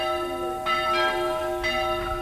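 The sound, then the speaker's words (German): Church bells ring over a ruined, abandoned village. Sustained metallic tones hum throughout, and fresh strikes land about a second apart. “Manchmal läuten sogar die Kirchenglocken über dem zerstörten Dorf.”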